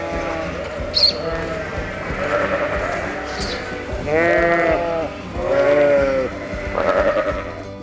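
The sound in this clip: Sheep bleating, as from a flock grazing on grass: a few wavering, nasal bleats rise above a steady continuous background, each held for under a second.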